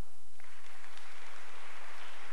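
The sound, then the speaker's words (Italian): Applause from the audience at a first communion celebration for catechism children: a dense, steady wash of clapping that holds evenly throughout without any break. “applauso.”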